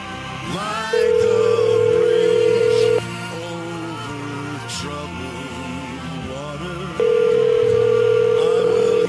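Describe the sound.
A telephone call being placed, its ringback tone sounding as two long, steady, level tones separated by a gap of several seconds, over a busy, faint background.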